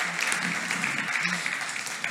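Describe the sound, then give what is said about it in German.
Applause fills a church service as the audience claps in a steady, hissing wash, with a voice speaking over it in places. “So, give applause to yourself for this great. Und gib dir selbst einen Applaus für diesen Ort, an dem du sein kannst.”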